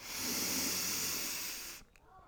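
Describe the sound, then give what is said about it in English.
A long, steady inhalation taken during a guided breathwork exercise: an even, airy hiss held for nearly two seconds that then stops abruptly, with no talking over it. “Last breath in”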